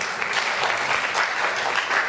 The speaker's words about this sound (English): I clap for you too.